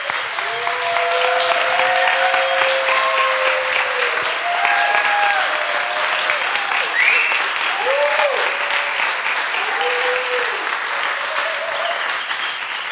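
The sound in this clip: Steady applause from an audience welcoming a speaker onto the stage at a CSLNJ event. The clapping stays loud and dense for the whole stretch, with a few voices calling out above it.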